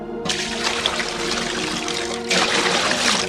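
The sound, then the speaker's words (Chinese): Water poured from buckets splashes over firewood and an altar sacrifice, a steady rushing pour that begins abruptly and swells louder toward the end. “我就是要祭物和木柴都湿了。来，连续倒3次，每次4桶水。”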